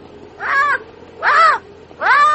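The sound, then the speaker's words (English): Black and white bird calling: three harsh, nasal caws, each about a third of a second long and evenly spaced, loud and alone over quiet background. “Well, for goodness sake. A black and white bird.”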